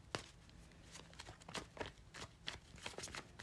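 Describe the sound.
Tarot cards being shuffled as one card flips out: a quick series of papery snaps and rustling flicks, soft and uneven in rhythm, repeating many times.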